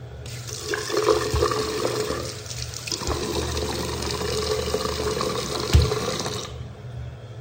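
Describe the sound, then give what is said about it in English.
Water runs steadily from a bathroom sink tap in a continuous hiss and splash for about seven seconds, with one brief louder splash near the end before it cuts off. “How did we let give up such control of the god darn bathroom sinks? Play the clip.”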